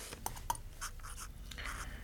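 Faint scratching of a pen writing on paper: short, light strokes in an irregular rhythm, quiet against a low steady hiss.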